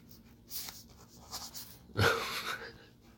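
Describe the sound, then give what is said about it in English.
Someone writes something down on paper. A few separate bursts of dry, scratchy pen strokes come at uneven gaps, and the final stroke is the loudest and longest. “Actually going to write that down because I've already forgotten.”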